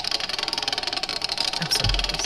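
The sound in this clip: A spun wheel turns, its spokes or pegs producing a rapid, even stream of many light ticks, with a low thump near the end.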